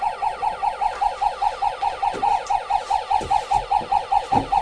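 A toy police car's siren wails in a fast, regular warble, with many identical high electronic pulses repeating evenly and no talking.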